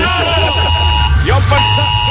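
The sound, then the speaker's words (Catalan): An emergency alert alarm buzzes in a steady, sustained, harsh tone that holds at an even level throughout, while people talk over it. “Abans de morir arrossegats per un incendi o un aiguat o un tsunami, morirem d'un atac de cor per culpa d'aquesta alarma del dimoni”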